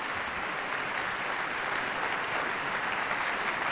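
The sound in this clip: Applause from a concert audience after an orchestral performance with a cello soloist: dense, even clapping that holds steady throughout without a break.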